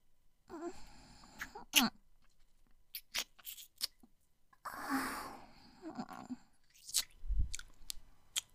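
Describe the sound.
Wet kissing in an intimate roleplay, with irregular close lip smacks and slurping mouth sounds broken by breathy moans and soft voiced murmurs.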